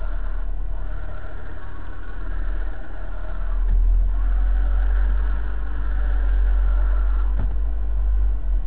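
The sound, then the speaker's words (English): A car's worn clutch throwout bearing whirring over a steady engine idle, its low hum shifting and growing louder partway through as the clutch pedal moves. “You can hear the noise change as I move the clutch pedal.”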